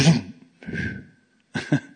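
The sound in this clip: A voice imitating a car engine coughing and spluttering as it runs out of fuel, made as a few rough, breathy bursts with short gaps between them and a quick double burst at the end.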